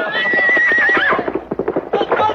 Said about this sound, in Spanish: El caballo iba a saltar sobre el joven cuando de pronto